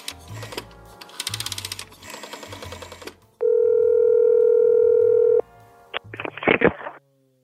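Phone line sounds: a burst of quick key clicks, then a steady electronic tone held for about two seconds, followed by a short crackly burst.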